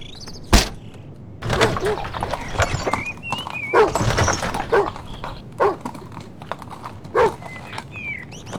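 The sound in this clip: Mules' hooves clip-clop through thick mud in a loose, uneven rhythm of many soft, squelching strikes, with people talking and calling out over them.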